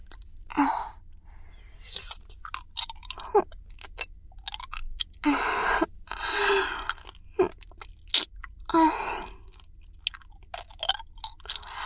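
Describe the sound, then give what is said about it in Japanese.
Hard candy is sucked and crunched in the mouth: many irregular faint clicks, wet smacks and sharp crunches, quiet and unevenly spaced over a steady low hum. “あなたも飴食べますか？って言っても今あるのは私が舐めてるこの飴だけなんですけど。”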